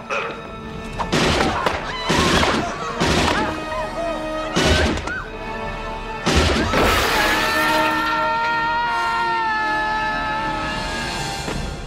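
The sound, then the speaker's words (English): Gunshots ring out as several sharp, loud blasts spread over the first half, over a sustained ringing tone that carries on after the last shot. “Nice shooting, son.”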